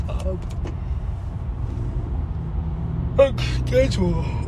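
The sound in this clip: Road noise inside a car driving on a road while trying to overtake another vehicle: a low, steady engine and tyre rumble throughout, with a voice briefly heard over it near the end.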